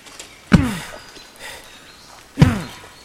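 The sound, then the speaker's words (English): An axe bites into the trunk of a huge tree with two heavy, woody thunks about two seconds apart, each leaving a brief ringing resonance, with faint rustling between the strokes. “Satyavan stopped in front of a huge tree, raised his axe, and began to chop it down.”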